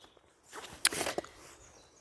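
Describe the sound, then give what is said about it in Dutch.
Faint footsteps of a person walking outdoors: a few soft, brief scuffs and taps over a quiet background, with no talk. “Ik ben lekker aan het wandelen”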